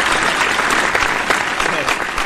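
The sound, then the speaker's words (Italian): A studio audience applauds with a continuous, dense wash of clapping that stays steady and fairly loud from start to finish. “Il pubblico in studio è sempre così generoso con noi, che ci applaude sempre.”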